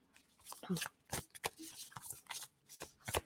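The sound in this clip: Cards shuffled for a card reading: quick riffling bursts come in an irregular series of crisp, papery flutters, fairly faint.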